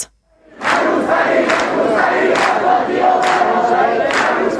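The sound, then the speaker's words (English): Students chant protest slogans at Tehran Polytechnic. After a brief silence, loud, massed, rhythmic chanting begins and continues steadily to the end. “That's the sound of students at Tehran Polytechnic in the Iranian capital chanting neither headscarf nor humiliation, freedom and equality.”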